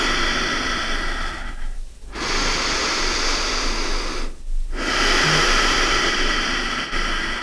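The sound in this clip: Deep, slow breathing during a guided belly-breathing relaxation exercise, with hands resting on the body. Long, airy breath noise flows almost continuously, broken by two brief pauses between breaths. No one speaks.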